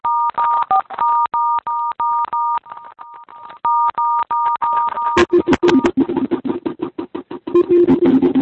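Telephone keypad tones from a conference call menu: a rapid, evenly spaced series of many short, bright electronic beeps, followed by a burst of dense, noisy sound.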